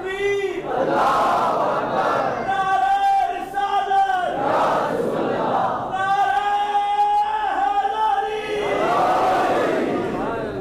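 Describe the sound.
A crowd at a religious gathering chants slogans in loud unison, in several strong waves of voiced shouting separated by brief dips.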